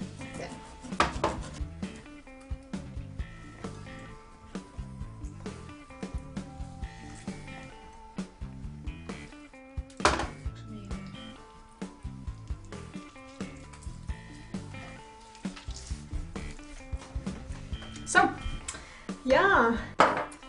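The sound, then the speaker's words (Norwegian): Mashing food by hand with great force to squeeze out all its juice: many irregular squishing thumps and clattering utensil knocks, with voices at times. “moser vi ut all saften med rå vikingkraft”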